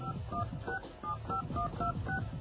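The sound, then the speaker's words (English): Touch-tone dialing beeps as a number is dialed on an old landline phone: a rapid, evenly paced series of short, clear electronic tone pairs over a low background hum, with no talking. “If you pick up the old phone line over here, and you dial”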